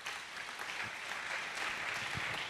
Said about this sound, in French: Acclamons la parole de Dieu.